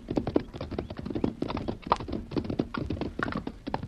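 Horses' hooves clop as riders enter a narrow passage. Many irregular, overlapping hoofbeats sound at a moderate-to-soft level, with no other sounds standing out.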